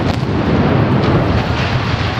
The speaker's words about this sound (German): Das war ein Knall, eine Sprengung nach Maß.